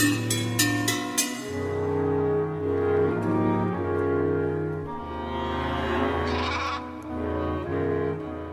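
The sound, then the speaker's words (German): Farm animals bleat like sheep and goats within a composer's piece played by an ensemble. Wavering bleats blend with sustained musical tones, and a few sharp clicks open the passage. “sondern auch noch eine Menge Bauernhoftiere.”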